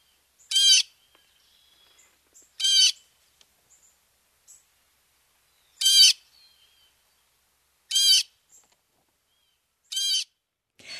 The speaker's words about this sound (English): This is the Blue Jay calls. Let's hear that.